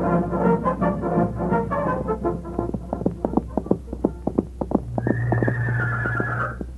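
A horse whinnies in a long, harmonic neigh in an Old West setting, followed by a run of sharp, evenly spaced knocks and a steady sustained tone near the end.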